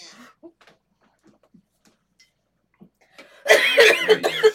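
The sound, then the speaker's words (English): A person coughs in a harsh, loud fit of several rough hacks lasting about a second, after a stretch of near silence broken only by faint, scattered small noises. “that's a little mean ass cough solo there”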